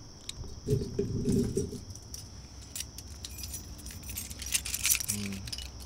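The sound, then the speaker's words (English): Metallic clinking and rattling as a coffee stout bottle is opened with a jagged, hop-shaped bottle opener, a faint scratchy clatter running throughout with brief low knocks. “So, yeah, I got a little coffee stout here. Where the bottle opener go?”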